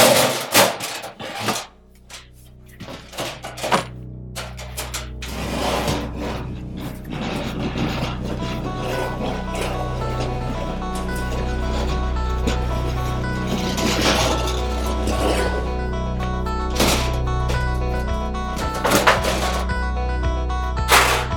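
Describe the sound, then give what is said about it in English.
A garbage can is hauled in as a comic clattering sound effect, a long run of rattling, scraping and clinking knocks with sustained ringing tones underneath. “It's time for a very special edition of the Garbage Can. Interns, bring in the garbage can.”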